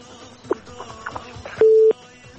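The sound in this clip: A phone line tone sounds after a caller's call was cut off: a single short, steady mid-pitched beep, clear above a faint low background murmur with a few soft blips before it.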